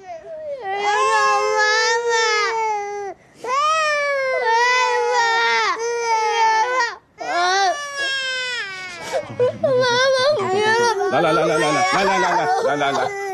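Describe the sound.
A child crying hard in long, loud wailing bursts separated by short gasps; toward the end the crying becomes more broken, with a lower voice talking over it.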